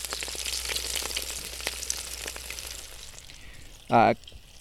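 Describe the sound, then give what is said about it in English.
Acacia flower fritter batter fries in 375-degree oil in an electric deep fryer outdoors, giving a soft, steady sizzle and crackle. One short, louder burst of bubbling breaks out near the end. “1/4 cupfuls of the batter into the 375 degree oil. You could make this on a stovetop, but I'm making it in an electric deep fryer”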